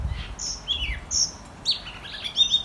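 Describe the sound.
An Oriental magpie-robin, a small black-and-white bird, sings a run of many high, clear whistled notes and chirps, some sliding downward, over a low, soft background rumble.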